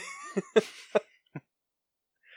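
Four sharp coughs ring out in quick, uneven succession, the second the loudest and the last one shorter and softer, followed by near silence.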